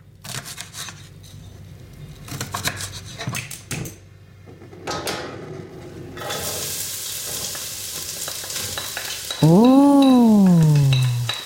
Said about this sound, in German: Jemand macht Essen. Er kocht. Oder sie kocht.